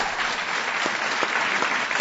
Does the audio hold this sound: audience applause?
yes